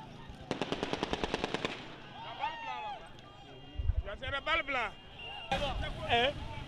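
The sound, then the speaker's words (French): Live-round gunfire during street unrest: a rapid burst of many sharp shots in quick succession, followed by shouting voices, crowd noise and a dull thud. “Et des milliers ont tiré à balles, ont tiré à balles réelles. Écoutons ce qui se passait non loin de la maison de François Compaoré”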